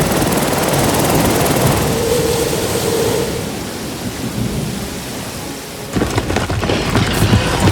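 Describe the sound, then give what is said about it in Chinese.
Heavy rain and deep rolling thunder as a helicopter flies through a huge storm, a dense, continuous roar that eases slightly midway, then a burst of harder crackling downpour near the end. “他们乘坐直升飞机穿越了巨大的风暴”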